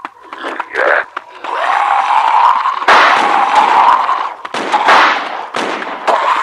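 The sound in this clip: Gunfire effects from an action scene in an audio drama: a few sharp, loud blasts cut through a sustained roaring noise.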